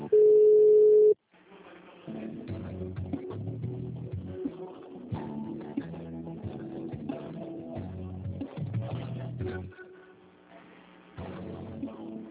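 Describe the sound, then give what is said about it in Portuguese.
A steady telephone tone sounds during a call transfer. It is a single loud, even tone of about one second, followed by a longer, quieter stretch of shifting tones. “Estamos transferindo a sua ligação para um de nossos atendentes.”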